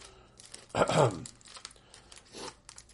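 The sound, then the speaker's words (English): Hockey card packs being torn open: one sharp ripping burst, a stretch of faint crinkling, then a second shorter tear, all at a soft level with no clear talk. “we'll open some hockey cards here”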